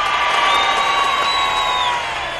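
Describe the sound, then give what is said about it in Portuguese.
Crowd cheering and applause for a woman, a dense wash of clapping with whoops and high shouts. It is loud and continuous throughout, with a rising whistle-like cry over the noise. “Uma multidão de aplausos pra ela!”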